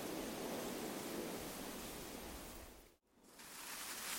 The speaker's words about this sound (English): Now to the hoses and a really good washing.